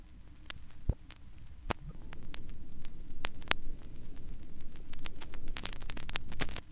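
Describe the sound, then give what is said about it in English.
Pops and clicks of surface noise from custom-pressed vinyl records: many sharp, scattered ticks at an uneven rhythm over a steady low rumble and hum, with no voices. “And finally, the pops and clicks from the vinyl records that Sloan had pressed just for the show.”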